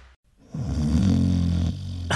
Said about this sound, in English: Seriously? Again? It's not just the snorer losing sleep.